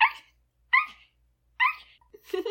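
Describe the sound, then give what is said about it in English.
A voice imitates the sweet bark of a small, fluffy dog with three short, high, evenly spaced yips, followed by a brief lower vocal sound. “It was small and fluffy and really, really cute. And it had the sweetest bark. It went like,”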